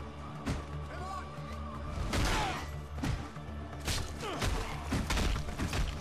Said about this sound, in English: I think I just obliterated that guy's skull with a mace!